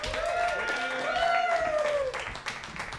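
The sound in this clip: Audience applause and cheering welcome five introduced speakers, a steady wash of clapping with a sustained voiced whoop riding over it for about two seconds before it thins out.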